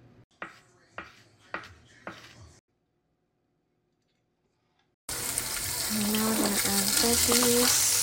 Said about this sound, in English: And from here, try not to stir it too much because the nopales will start getting really slimy.